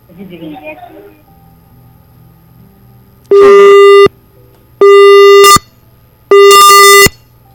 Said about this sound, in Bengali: হুট করে লাইনটা কেটে গেল।